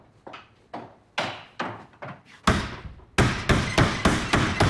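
Forceful banging on a door: a long run of heavy thuds. The blows grow louder and come faster toward the end, with no voices between them.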